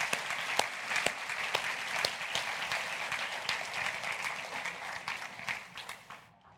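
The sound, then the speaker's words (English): Applause from a crowd welcoming a visiting team, many hands clapping in a steady, even stream that tapers off at the very end. “Welcome. Visitors, thank you, team. Let's give them a hand.”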